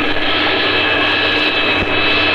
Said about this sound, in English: Now we check for oil pressure. We check RPM coming up. Let the RPM stabilize.